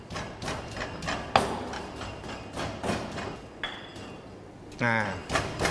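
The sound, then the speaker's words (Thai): Pestle pounding curry paste with garlic in a mortar, a long run of sharp, steady knocks at an even pace that continue through the whole stretch. “เดี๋ยวเราขออนุญาตใส่กระเทียมลงไปนะครับตำให้เป็นเนื้อเดียวกันนะครับ”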